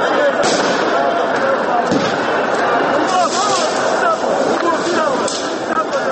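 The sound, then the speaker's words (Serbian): Riot noise erupts at a Brussels protest as police use tear gas and water cannons against demonstrators. A loud, dense din is broken by several sharp bangs and heavy thuds. “Pred kraj protesta izbili su neredi, a policija je suzavcem i vodenim topovima prekinula incidente.”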